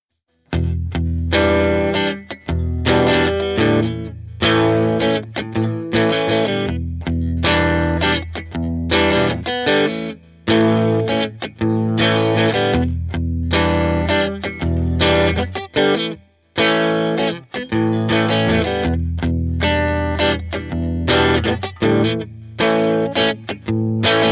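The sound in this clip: Electric guitar plays a catchy chord progression in eighth notes in 4/4, with palm muting and ghost notes. Loud and distorted, the strums sound choppy and percussive, with short gaps and muted hits between the ringing chords, and no voices.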